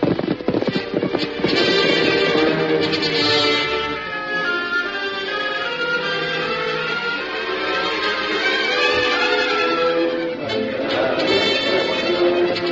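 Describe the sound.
Hoofbeats of horses galloping off as Western riders set out, one of them on a horse named Victor: a loud, steady clatter of hooves that runs through the whole stretch without a break.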